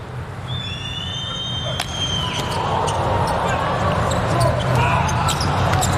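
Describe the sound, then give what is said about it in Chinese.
A few sharp ball strikes ring out during a volleyball match serve, crisp smacks over a continuous crowd roar, with a commentator talking. “对，目前第一局还是一个均势，安德森来发球”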